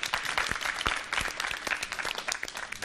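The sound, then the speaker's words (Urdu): An audience applauds to welcome Team C after it scores 25 points in an arrow-throwing points game. The clapping is steady, dense and fairly quiet, with a few sharper claps standing out. “ایک تالیوں سے ان کا استقبال۔”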